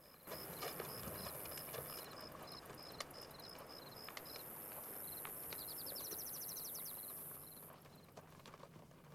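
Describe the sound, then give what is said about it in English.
Faint hooves clip-clop as riders set off on horseback, with two more horses loaded with gear and a body following. The soft irregular knocks sit under a steady, high chorus of crickets and insects. “Setting off on horseback with two more horses loaded with gear and Melquiades' body following on, they ride off.”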